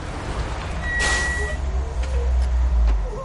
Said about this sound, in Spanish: El vehículo se detiene en un parking.